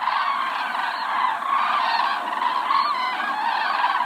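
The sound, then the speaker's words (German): A migrating flock of cranes calls continuously: many overlapping, honking, trumpet-like cries form a dense, steady chorus at fairly even loudness for the whole clip, with no voices. “Also hört sich ein Kranichzug an.”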